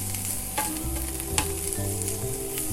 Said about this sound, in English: So I'd say when you're about 75% done with cooking these mushrooms, maybe, like, 80% done cooking these mushrooms,